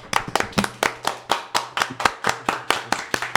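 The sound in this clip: Two hands clapping in applause, many sharp, evenly spaced claps in a steady, loud rhythm with no other sound.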